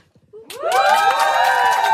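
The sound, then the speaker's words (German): An audience bursts into cheering and clapping at a live talk. It starts after a brief near-silent moment, with high whoops and shouts over the clapping, and stays loud until the end. “Aber ihr müsst dann klatschen, wenn ich fertig bin, okay?”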